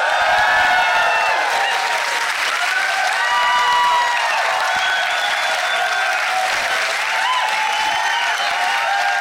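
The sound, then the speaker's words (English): A live audience at the Prince Charles Cinema in London cheers and applauds. The loud, dense wash of clapping holds steady throughout, with cheering woven into the roar. “Oh, yes. Just as we rehearsed, beautifully done. Can tick that off. It says here, audience goes wild.”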